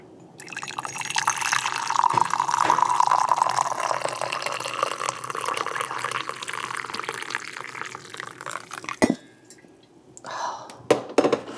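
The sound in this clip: Coffee poured into a cup for the first cup of the day: a steady liquid stream that runs for several seconds, then gives way to a few brief, sharp clinks.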